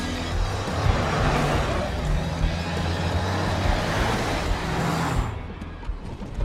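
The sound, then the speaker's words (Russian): Road noise of a service van driving along a highway: a steady, dense rumble and hiss that runs throughout with no pause. The higher hiss thins out slightly near the end. “По трассе едет служебный фургон.”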